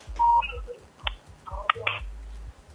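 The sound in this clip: A telephone line clicks and gives a short beep as a caller is put through to a radio call-in show. Sparse clicks and low thumps follow.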